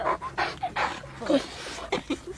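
A dog pants and whimpers in many short, uneven bursts, broken by a few soft, high yips, all at moderate loudness.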